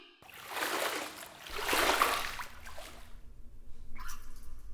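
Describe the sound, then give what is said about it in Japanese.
Faint swishing and sloshing of bath water as someone settles into a tub, a soft watery swell that rises and fades, then quieter lapping. “湯船に浸かってリラックスしてね。”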